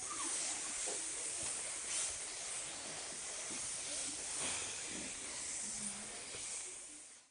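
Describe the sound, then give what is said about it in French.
Snakes hissing in a cave, a faint, continuous airy hiss that swells slightly now and then and carries on without pause. “Attention des serpents Oh là là, j'espère que ce ne sont pas des serpents venimeux.”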